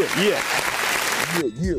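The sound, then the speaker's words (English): Studio audience applause, a dense wash of clapping with voices calling out over it, that cuts off abruptly near the end before speech continues. “Yeah, that's our studio audience.”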